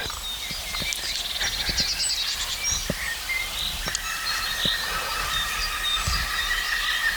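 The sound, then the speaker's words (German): Green woodpecker laughing call, a faint run of repeated notes in the latter part over a steady outdoor background with scattered clicks. “Der Grünspecht lacht uns wieder mal aus.”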